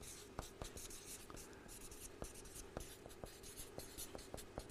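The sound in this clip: A pen writes by hand on paper, a faint, continuous scratching broken by many small, sharp ticks as strokes begin and end, with no voices.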